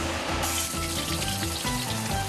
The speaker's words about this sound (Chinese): 청란을풀고쪽파와굴을넉넉히넣고팬에서노릇하게부쳐내면청란전완성이고요